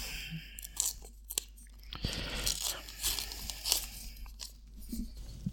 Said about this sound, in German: du öffnest den Umschlag